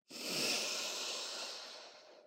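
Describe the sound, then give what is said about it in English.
A single strong, slow inhalation through the nose, an airy, breathy hiss that rises quickly, holds steady for about two seconds and then tails off. “Start with a few strong, slow inhalations through the nose,”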